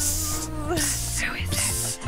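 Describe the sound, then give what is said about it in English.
A voice imitates insect spray aimed at a fly with a few breathy hissing bursts among spoken talk. “there is a fly. Whoa, God, fly alert. Get the spray. Psst,”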